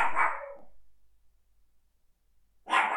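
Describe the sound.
A small chihuahua barks at something outside: two short, sharp yaps separated by a stretch of near silence.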